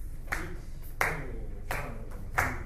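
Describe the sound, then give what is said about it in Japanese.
Four evenly spaced hand claps keep a steady beat for people walking around a room in time. Each clap is crisp and short, with quiet gaps between them. “で、僕手拍子をするので、それに、足を合うように”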